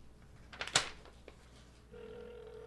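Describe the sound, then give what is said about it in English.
A telephone rings: a steady electronic tone starts partway through and holds to the end, after a few brief clattering knocks over a quiet background hum. “Hold on. Okay. That's the phone ring.”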